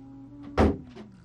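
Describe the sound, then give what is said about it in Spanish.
A window is suddenly shut with one sharp, heavy thud over a low, steady hum. “Pero poco dura la alegría de la fiel Juana porque Malavé cierra de pronto la ventana y la cortina, haciendo de nuevo que la estancia quede a oscuras y sin ventilación.”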